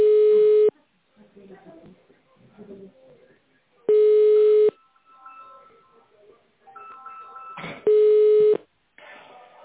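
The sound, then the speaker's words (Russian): Telephone ringing tones play before a call connects: three long, steady, mid-pitched tones spaced evenly about four seconds apart, with faint murmuring and voices in the gaps between them. “Ростендер, скажите, Виллер Медиа, верно набираю? Не понял я. Звоню в компанию Виллер Медиа.”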